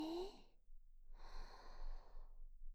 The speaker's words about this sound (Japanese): いつものように、深呼吸をどうぞ。吸って、